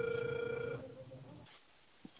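Ringback tone of an outgoing telephone call: one steady mid-pitched tone sounds for under a second, then stops, leaving faint hiss and a soft click.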